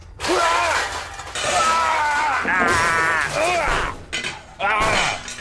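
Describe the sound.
Glass potion bottles smashing, with a few sharp crashes of breaking glass mixed with continuous voices and vocal noises.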